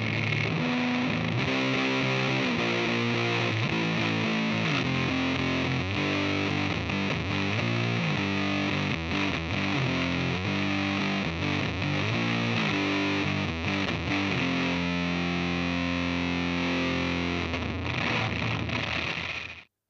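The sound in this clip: High-gain distorted electric guitar played with the noise gate switched off, ringing out in loud, continuous chords and riffs for the whole stretch with a constant hiss under the notes, no talk.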